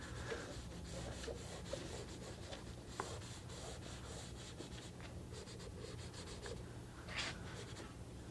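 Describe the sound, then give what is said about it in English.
Drawing on paper gives quiet, irregular scratching and rubbing strokes, some short and sharp, over a steady low hum, with no talking. “You'll be surprised what I'm drawing here.”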